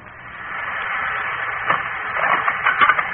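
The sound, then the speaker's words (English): Mechanical whirring and grinding of a little wheel turning to grind out roast beef and potatoes: a steady, hissing motor-like drone that builds slightly, with a few rattling bursts toward the end. “Turn, little wheel. Grind out my command.”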